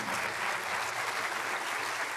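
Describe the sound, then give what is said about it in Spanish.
Applause from an audience at a church service, a dense, continuous patter of many hands clapping at an even level throughout, with no voices over it. “Denle otro aplauso al Señor.”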